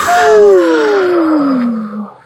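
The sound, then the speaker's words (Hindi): A deep breath let out as a voiced sigh during a guided breathing exercise: one loud, drawn-out tone that glides steadily downward in pitch for about two seconds before fading. “लंबी सांस अंदर, लंबी सांस बाहर,”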